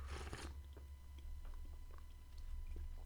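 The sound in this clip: A slurping sip of chai latte: one short, noisy draw of liquid at the start, followed by a few faint small mouth clicks over a steady low hum.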